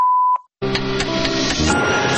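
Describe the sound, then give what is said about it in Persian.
A single steady mid-pitched beep tone signals the end of a recorded phone message. It lasts under half a second and is followed by a brief silence and then loud music. “پایان فرمایش ما تفضل پخش بوق.”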